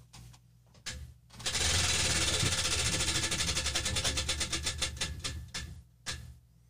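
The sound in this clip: Prize wheel spinning, its clicker rattling in a fast stream of ticks that gradually slows toward separate clicks, with a few louder knocks before and after.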